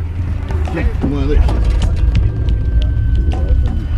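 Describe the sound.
Low, steady engine and road rumble of a car driving out of town, continuous throughout with people talking over it.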